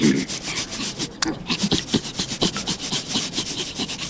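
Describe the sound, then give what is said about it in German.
Graffiti being scrubbed off a defaced wall: rhythmic back-and-forth rubbing strokes, many in steady succession, loud and alone. “Guck mal, ich hab schon ein bisschen weggeschrubbt.”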